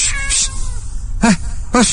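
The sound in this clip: Two sharp meows from an angry cat that has just been shooed away, each a brief harmonic cry about half a second apart, standing out over a steady low background rumble.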